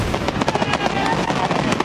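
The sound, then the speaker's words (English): Fourth of July fireworks exploding in a dense barrage of sharp crackling pops and bangs, loud and continuous throughout. “15 minutes of fireworks”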